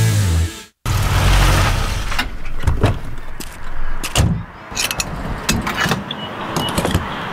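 Gasoline pumping into a car's fuel tank at a gas station in Iowa: a brief low hum cuts out, then a steady rushing flow is broken by several sharp mechanical clicks and clunks.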